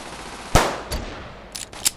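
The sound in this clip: Gunfire from an M14 rifle during shooting practice: four sharp shots, the first loudest and the next three spaced unevenly and growing fainter.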